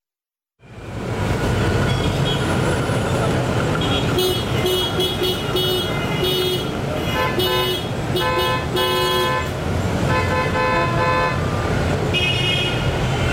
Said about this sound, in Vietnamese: chúng ta vừa nghe những âm thanh phải nói là rất quen thuộc trên đường phố phải không ạ? Đó chính là tiếng còi xe